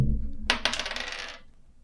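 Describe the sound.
Dice rolled on a table during a tabletop role-playing game: a sudden clattering burst, then a quick second knock and about a second of bright rattling that fades to quiet, with no voices.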